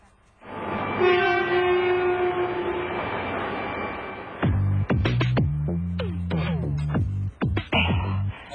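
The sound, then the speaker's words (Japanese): Shinkansen bullet train sounds with a steady loud rumble and a sustained horn-like tone. A run of shifting, gliding tonal notes and clatter follows, with no talking. “新幹線に乗るの久しぶりだな。”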